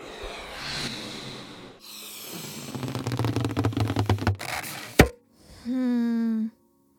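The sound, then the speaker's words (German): A balloon pops: squeaky rubbing sounds lead into one sharp, loud pop, a moment of silence follows, and then a short voice-like tone. “Kleiner Tipp, es ist rund und kann platzen. Ah, ich weiß, ein Luftballon.”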